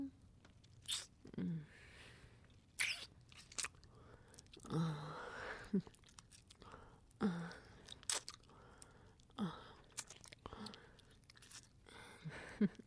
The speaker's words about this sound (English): Are you saying that you would rather be writing an email right now instead of listening to me breathe against you?